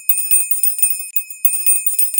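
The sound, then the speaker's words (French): A high, bright bell clangs in rapid, vigorous strokes to call dinner in a castle courtyard. Many quick strikes come in two runs separated by a short pause, with loud, ringing tones throughout. “Dans la cour du château, la cloche appela le dîner à toute volée.”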